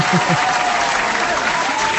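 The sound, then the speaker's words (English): Hands clapping in steady applause, a loud, continuous patter of many claps blending into a sustained rush throughout. “Okay, I'm gonna clap for you.”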